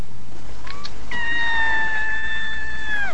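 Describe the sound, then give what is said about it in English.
A cat meowing: a few brief calls, then one loud, drawn-out meow lasting about two seconds that holds a steady pitch and falls slightly at the end, over a low background hum. “Full-on cat there. Full-on cat.”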